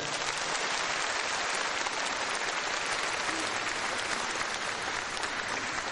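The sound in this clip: Sustained applause rises from a large seated audience at a gathering of some ten thousand people. Dense, even clapping continues without a break for the full six seconds, moderately loud and steady.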